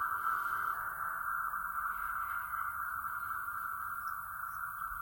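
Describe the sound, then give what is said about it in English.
Sustained guitar tone drenched in an ionosphere reverb effect from a Kemper Profiler rig: one bright, steady, ringing band that holds almost unchanged for about five seconds, fairly loud and smooth, with no talk. “ionosphere reverb”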